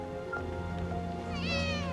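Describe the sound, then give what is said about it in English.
A kitten climbing over a pile of clothing lets out one clear, thin, high meow near the end, set against a steady tonal hum that runs underneath throughout. “The kitten from Joshua's transport truck climbs over the clothing.”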